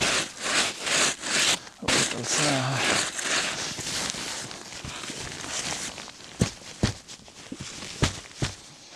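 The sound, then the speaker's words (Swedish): Footsteps of someone hiking on foot through the Uppland countryside: a run of rustling, scuffing steps at first, then several sharp, separate footfalls toward the end, moderately loud. “Jag har gått igen. Jag vet inte hur länge jag har gått.”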